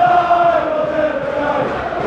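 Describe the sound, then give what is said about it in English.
Manchester United away fans singing at a Watford football match, a loud, blended crowd chant holding sustained tones throughout the brief moment. “Wan-Bissaka disappeared, and you can hear those of the United fans, most of them who stayed, to be fair,”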